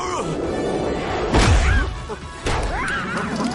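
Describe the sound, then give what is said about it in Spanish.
Cartoon character smashing into another's face, a sharp smack and crunch rising out of a dense bed of music and voices, with a second thump landing shortly after. “Chita choca contra la cara de Gorila.”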